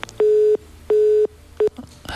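Telephone tones sound as a call-in line is cut off: three pure beeps at the same pitch, two long and one short, against a quiet line.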